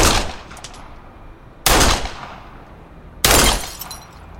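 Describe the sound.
Three sharp gunshots are fired at a bottle, evenly spaced and loud against a quiet background. Each crack has a bright, noisy burst that trails off in a decaying tail.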